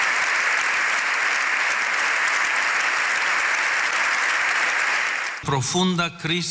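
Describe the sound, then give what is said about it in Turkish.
Sustained standing ovation for Pope Leo XIV in the Spanish parliament chamber, a thick, loud roar of many hands clapping for over five seconds. A voice then starts speaking as the clapping drops away. “Papa 14. Leo İspanya'da Meclis Genel Kurulu'nda konuştu. 7 dakika ayakta alkışlandı.”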